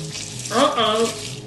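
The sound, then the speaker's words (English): A sizzling, bubbling sound effect of a body melting into ooze swells up suddenly and then hisses on steadily for about a second over a faint background. “melting in front of my very eyes. The ooze created by his melting form coalesced into a grotesque monster.”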